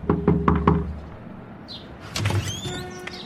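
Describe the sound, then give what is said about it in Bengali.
Four quick knocks on a wooden door, sharp and evenly spaced, followed after a short pause by higher squeaky creaks and scraping. “বিধুবাবু গিয়ে দরজায় টোকা মারলেন”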